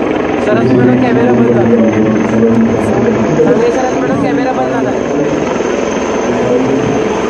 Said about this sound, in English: this is the latest picking up live visuals of the choppers, the Mi-17 of the Indian Air Force, of the Indian Army